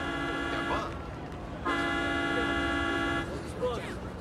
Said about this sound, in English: Suddenly, everyone turns as a bus drives into the rally.